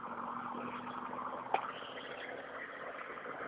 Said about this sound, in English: oh dear, there's a couple of big trucks coming. I'm gonna step off the road.